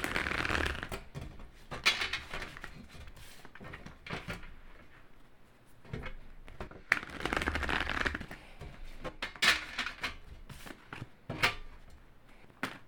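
A deck of tarot cards shuffled by hand: repeated bursts of riffling, rustling and flicking in an irregular rhythm, some flurries sharper and louder, separated by brief pauses, with no talking.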